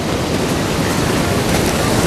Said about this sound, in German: Ricky begleitete Emma zum Strand. Die ersten Stunden sind am Strand, dabei wird man nicht nass.